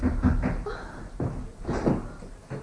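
A door is opened in a staged drama scene, giving a few dull, rumbling bumps and creaking bursts of moderate loudness, with no talk over them.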